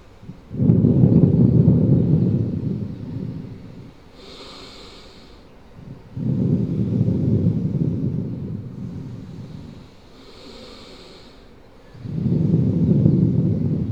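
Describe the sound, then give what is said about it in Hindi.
Bhastrika pranayama, forceful bellows breathing in a Patanjali yoga class: three long, loud, rushing breaths, each several seconds long, separated by quieter, airy pauses. “गर्दन सीधी, सामने देखना है, आंखें बंद, दोनों हाथ घुटनों पे आराम से रखे हुए, लंबी गहरी सांस लेते हुए अब करेंगे भस्त्रिका प्राणायाम।”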